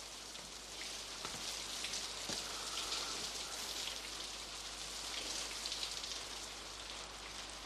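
Rain falls in a steady, soft hiss of many small drops, continuous and even throughout, with no voices.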